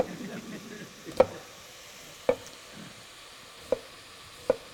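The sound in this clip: A kitchen knife chops food on a cutting board: four sharp, isolated taps at uneven intervals, fairly faint, over a quiet low background.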